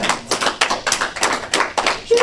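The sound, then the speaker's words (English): Congregation clapping in a church service, loud and fairly rhythmic bursts of many hands striking together at a steady pace, each clap cluster sharp and bright, continuing throughout. “And so, you can clap on that.”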